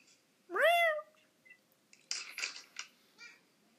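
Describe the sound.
A cat gives a single loud, drawn-out meow that bends up and then down in pitch, followed by a few soft rustling and clattering sounds.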